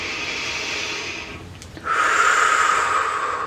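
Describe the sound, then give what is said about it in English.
A deep breath during a healing meditation: two long, airy breath sounds separated by a short pause, the second fuller and louder, with no talking. “Deep breath.”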